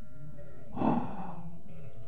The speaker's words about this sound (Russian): Она дочь Лавана, и она приводит сюда отцовских овец на водопой. Да? Да. О, а вон и она. Идет сюда.